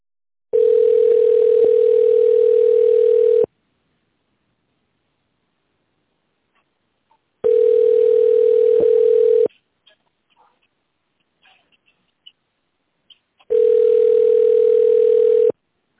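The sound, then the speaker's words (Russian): A steady telephone tone on a phone line sounds in three long bursts separated by silent gaps, each a flat mid-pitched hum; faint clicks fall in the second gap. “Для соединения с сотрудником наберите его номер в тоновом режиме.”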